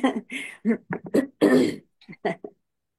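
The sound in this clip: Someone clears their throat in a quick string of short, rasping, throaty bursts, about ten of them, stop-start over a few seconds, separated by brief silent gaps.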